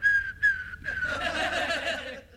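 A person whistles a steady, high, clear tone that breaks off twice in quick succession, then gives way to a louder, noisier, rougher stretch of sound.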